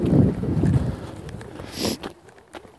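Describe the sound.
Strong cold wind buffets the microphone outdoors while someone walks due north, head-on into it. A low, roaring rush is strongest at the start and eases off toward the end.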